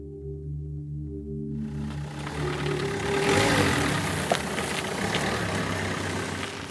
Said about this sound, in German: Am Stettiner Hafen der deutsch-polnischen Grenze fährt ein Viehzüchter zu seinen Tieren.